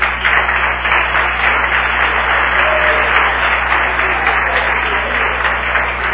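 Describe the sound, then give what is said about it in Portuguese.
An audience claps for a pastor at a gathering, a dense, steady wash of applause that holds at an even loudness for the whole stretch, with a low electrical hum beneath it. “E queria que primeiro batesse palma para o pastor Wilson.”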